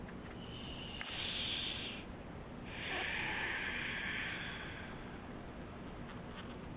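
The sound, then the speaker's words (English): A deep breath drawn at the start of a guided meditation, heard as two faint, airy swells of breath noise, the second longer than the first, over quiet background hiss. “if we can just close our eyes and take a deep breath.”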